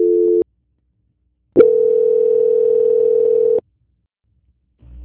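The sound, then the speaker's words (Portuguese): Steady electronic tones on a VoIP phone line as a call is transferred. A brief dual tone is followed by silence, then a flat, unbroken tone lasting about two seconds, and another tone begins at the end. “Pedi só para o senhor permanecer na linha que eu vou estar transferindo o senhor para o controle de qualidade. Tá bom? Transferência.”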